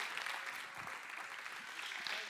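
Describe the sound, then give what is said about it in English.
Applause from an audience welcoming a speaker: dense, steady clapping that stays fairly faint and even from start to finish, with no clear break or swell. “So if y'all can just give her a round, warm welcome.”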